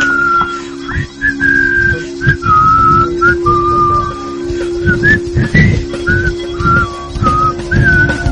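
A film character whistles a tune, a clear, melodic whistle moving up and down in pitch through many short phrases over a steady low hum and background rumble.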